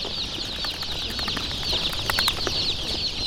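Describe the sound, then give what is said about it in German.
Shrill peeping of many five-day-old yellow chicks waiting behind shoe boxes for transport, a dense, continuous chorus of overlapping high-pitched cheeps at moderate loudness. “Hinter den Schuhkartons warten etwa genauso viele kleine gelbe Küken, die alle vor 5 Tagen geschlüpft sind, auf ihren Weitertransport.”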